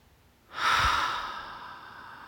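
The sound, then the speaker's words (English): A single slow, deep breath taken during a guided pause to stop and breathe, a soft airy rush that swells quickly, then fades gradually into a long, quiet exhale-like tail, heard alone without talk. “which means we stop and we breathe.”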